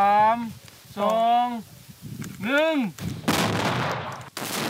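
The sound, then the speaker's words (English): A controlled detonation of leftover bombs in a field in Shen Kuan province bursts out as a loud, broad roaring blast lasting over a second, after a voice calls out a few drawn-out phrases. “In fields across Shen Kuan province, MAG technicians root out leftover bombs and in controlled detonations.”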